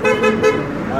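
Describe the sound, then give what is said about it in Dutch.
Friendly car horn honk: a few short, light toots that run into a steady, bright horn tone. “That was a good one. A friendly one. A friendly honk.”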